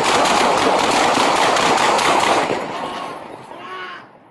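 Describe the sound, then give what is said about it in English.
Rapid burst of gunshots during a police confrontation with a man holding a knife, a dense, harsh crackling volley that holds for a couple of seconds, then fades out. “shots fired”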